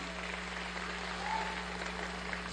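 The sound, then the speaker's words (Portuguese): Church audience applauding at a family encouragement congress: a steady, continuous wash of many hands clapping, fairly faint and even throughout, without a clear rise or fall. “Então vamos aplaudir ao Senhor Jesus, aleluia, pelo Espírito Santo que habita em nós.”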